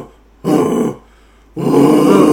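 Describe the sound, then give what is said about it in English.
A voice imitates a dog barking as a vocal screaming exercise, producing two rough, growling bursts, the first short and the second longer and sustained, with silence between them. “You can imitate the sound of a dog barking. So that's so that noise.”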